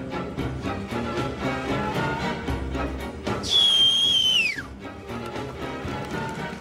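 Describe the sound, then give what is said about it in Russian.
A man holding a sawn-off shotgun whistles a signal: a single sustained high whistle that holds a steady pitch for about a second, then slides downward and stops. It sits over a dense, continuous background. “Человек с обрезом свистит, и на его свист выходят вооруженные люди.”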